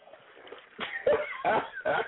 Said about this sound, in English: I can feel her laughing over there and coughing at the same time.